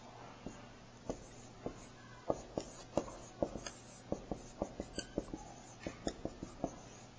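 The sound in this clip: Words written out by hand as many faint, short scratching pen strokes tick along in an uneven but steady rhythm over a low background hum.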